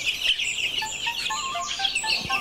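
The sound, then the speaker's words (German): Newly hatched Altsteirer chicken chicks peep in faint, high, thin chirps, many short calls overlapping in an uneven stream with no talking. “Das ist ein Aalsteirer. Ja. Frisch geschlüpfte Küken müssen erst trocknen.”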